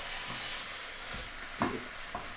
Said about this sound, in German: Und jetzt vorsichtig umrühren.